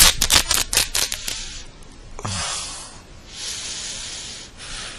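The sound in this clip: Fabric tearing as a shirt is ripped off: a quick series of sharp, raspy ripping bursts, followed by longer, softer rustling tears, with no talk.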